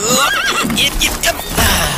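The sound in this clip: A horse neighs with a loud, wavering, high whinny that rises and falls over a dense, noisy background.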